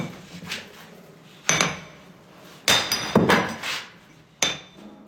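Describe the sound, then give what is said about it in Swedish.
Sharp metallic strikes of a large chisel hammered against the side of a roughly 30-kilogram limestone block, knocking off sizeable chunks. Several loud, ringing blows come at uneven intervals, with quieter scraping and clatter between them and no talk. “Han slår på sidan av stenen med en stor mejsel så att rätt stora bitar far bort.”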